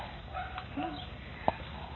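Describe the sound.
A small dog barking: a few short, faint yips, then one sharper, brief bark standing out above a low background hum.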